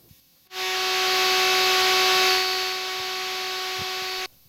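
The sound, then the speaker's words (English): A firmware loading file plays on a Radio Music module as a loud, hissing, data-like noise with steady high tones running through it. It lasts about four seconds before cutting off abruptly. “And what you are hearing there is a loading file, a firmware file.”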